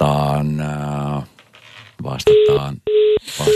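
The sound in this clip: Telephone tones sound as a new call is dialed: after a voice speaks, short steady electronic beeps come in a few separate bursts.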